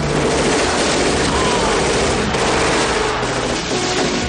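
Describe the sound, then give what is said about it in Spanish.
Submachine gun fire in a 1996 action-film shootout, with men firing from an excavator bucket at Russian gunmen on a ship. A dense, continuous rattle of gunfire stays loud throughout with no break. “Al momento, la pala de un excavador asciende a su altura, y en ella aparecen John y sus amigos, que disparan contra los rusos.”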